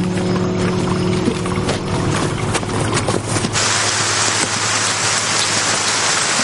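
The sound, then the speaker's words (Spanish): Rain falls in a steady, dense hiss that stays loud and even throughout. A faint low hum sits under it early on, then the wash of rain continues alone. “Más tarde llueve de nuevo y ellos se adentran en un bosquecillo.”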